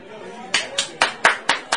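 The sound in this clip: Six loud, crisp hand claps from one man in a loudest-clapper contest in Sitka, evenly spaced at a brisk steady beat over faint background hum.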